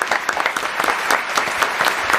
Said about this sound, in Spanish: Un aplauso para esta joven.